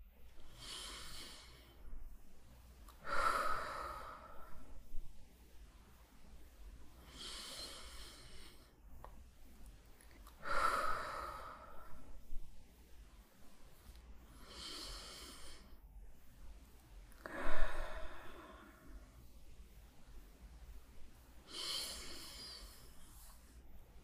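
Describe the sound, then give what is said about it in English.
Slow deep breaths: soft, airy inhales and exhales spaced several seconds apart, faint and heard alone against a quiet background. “take a couple deep breaths, just five, since we are now in 2021, it is the year of five. Five deep breaths.”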